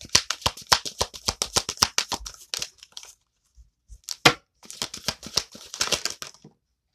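A deck of oracle cards being shuffled: rapid, crisp card flicks and slaps in two busy bursts separated by a pause with a few isolated clicks, with no voices.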